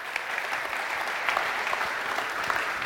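An audience applauding to welcome the city manager: steady, even clapping from many hands throughout, with no talk over it.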